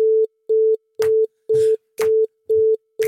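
A telephone call to Via Direkt going unanswered, heard as a steady electronic phone tone pulsing in short, evenly timed beeps, seven in all with the last cut off, and brief noise bursts over several of them.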